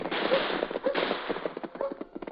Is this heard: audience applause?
no